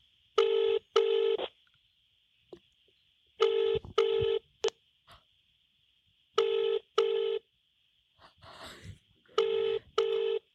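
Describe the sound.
A telephone call rings through toward voicemail: a double-burst ring tone repeats four times at a steady cadence, with a faint constant high tone and a brief breathy rustle between rings.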